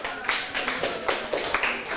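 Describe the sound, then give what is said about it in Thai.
Students in a class applaud themselves with a scattered round of quick, uneven hand claps. The sharp, bright slaps overlap loosely for about two seconds at moderate loudness. “ถือว่าทุกคนเก่งมากปรบมือให้ตนเองอีกครั้งครับ”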